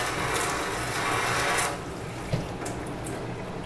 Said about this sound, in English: Then come to your hot water. Fill that up with the hot water. Flush it out.